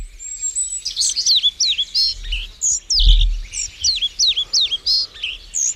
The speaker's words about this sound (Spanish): Esto es un papamoscas cerrillo que hace su nido de forma troglodita.